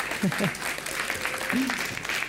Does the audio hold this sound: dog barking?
no